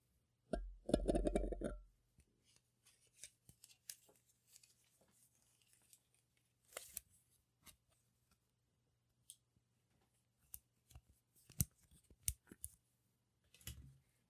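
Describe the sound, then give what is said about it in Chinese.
Disposable handcuffs being fastened: a loud rasping burst near the start, followed by scattered faint clicks and light ticks over a quiet background. “这个是我新买的一次性的手铐，让我把你铐起来。”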